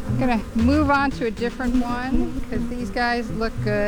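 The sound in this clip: Bees buzz at a backyard beehive in a low steady drone heard beneath a person talking.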